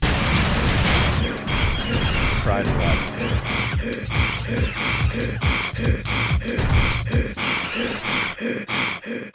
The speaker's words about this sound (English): Yeah, it's just how the Rancor breathes, apparently.